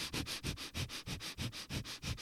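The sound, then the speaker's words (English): Breath-of-fire breathing, quick forceful inhales and exhales through the nose: many sharp, sniff-like bursts in a steady, fast rhythm, moderately loud and with no talking. “one of those quick fire breaths where you quickly, slowly inhale the skull shining breath through the nose and out of the nose like this”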